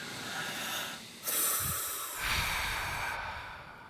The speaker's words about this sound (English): So let's all take a communal breath.